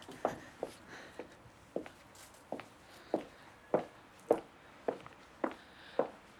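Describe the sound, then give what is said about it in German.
Footsteps cross a small terrace in a steady, even walking rhythm, about eleven distinct footfalls, each a soft, quiet thud against a hushed background. “Nun gehen wir über die kleine Terrasse hier.”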